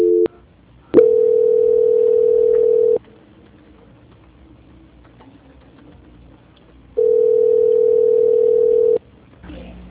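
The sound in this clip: Steady telephone tones while a call is being transferred: two long, even beeps of about two seconds each, separated by a quiet gap of several seconds, with a short tone at the very start and no talking over them.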